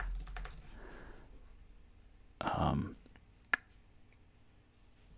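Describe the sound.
A computer keyboard is typed on in a few scattered clicks, with one louder, longer clatter midway and a sharp single tap after it. Quiet speech is faintly present.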